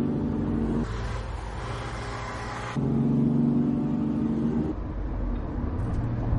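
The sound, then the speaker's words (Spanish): Engine rumble of BMW cars accelerating and zigzagging through city traffic, heard as a steady, loud low drone whose tone shifts in a few stages as the engines rev, with no voices. “Dos BMW circulan tras ellos. Toro acelera. Los BMW se saltan un semáforo y se acercan a ellos. Toro zigzaguea entre los coches.”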